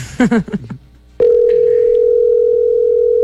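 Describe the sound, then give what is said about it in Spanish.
Steady telephone tone, a single unbroken electronic pitch that holds loud and constant for about two seconds, preceded by a brief burst of voice. “Empiezo a marcar, ahí va a sonar.”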